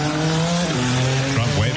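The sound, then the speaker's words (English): The presidential limousine known as the Beast takes a lap of honor at an Indy-style Grand Prix race track in Washington, D.C.: a loud, continuous engine drone whose tone steps lower partway through. “At the Freedom 250 Grand Prix, the first Indy-style race ever held in the nation's capital, Trump taking a lap of honor in the Beast.”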